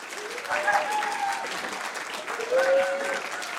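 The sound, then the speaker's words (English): Sustained applause from a church audience welcoming a speaker, steady and moderately loud, with a couple of swells throughout. “I'd like you to welcome, put your hands together and welcome now, Stacey Meredith.”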